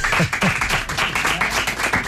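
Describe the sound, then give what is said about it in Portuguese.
Audience applause for a Portuguese guitar player, a dense, steady patter of many hands clapping that continues evenly for the whole two seconds. “uma salva de palmas para o Rui Pedro”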